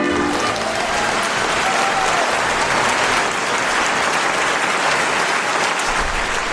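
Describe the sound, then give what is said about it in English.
Audience applause greeting a live radio theater troupe and its host: thick, continuous clapping that stays loud and even for the whole stretch, with no voices over it. “Now, please put your hands together for the Point Blank Radio Theater.”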